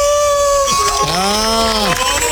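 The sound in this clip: A man imitates a wolf howl, a sustained, loud voiced tone that swells and bends gently in pitch before tapering off, preceded by a steadier higher vocal note.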